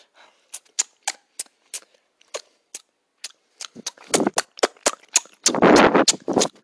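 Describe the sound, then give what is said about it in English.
Chewing gum is snapped over and over: many sharp, dry pops, sparse and irregular at first, then coming faster and denser, with a longer, noisier crackling burst near the end. “I came all the way here just to hear you snap your gum like a dip!”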